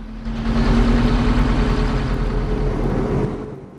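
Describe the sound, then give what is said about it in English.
A car engine runs as the car drives off, a steady low mid-pitched hum that swells slightly and then fades near the end. “Grimacing with pain, Jim drives off.”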